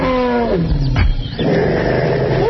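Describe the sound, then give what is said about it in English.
Elephants vocalizing, with a female making most of the noise: loud, sustained low harmonic calls that bend and slide in pitch, with a brief rougher burst in the middle, continuing without pause. “Those are elephants.”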